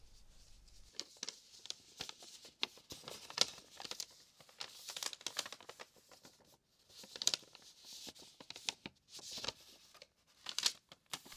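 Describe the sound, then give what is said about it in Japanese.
Origami paper crinkles and rustles as it is turned over and laid flat, with many soft, irregular crackles and taps throughout, faint and with no voices. “まずは折り紙を裏返して、角の部分が一つだけ下に来るように、ひし形の形に紙を置いて、”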